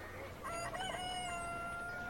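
A rooster crows once in a long, sustained, strained call with a wavering start, faint over a low background hiss, with no talk.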